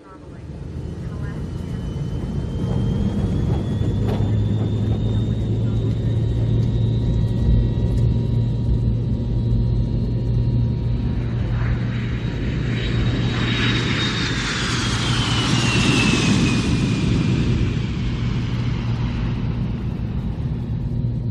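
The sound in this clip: An airplane takes off with a steady, heavy engine rumble under a thin high whine, swelling into a louder, brighter roar partway through before easing slightly.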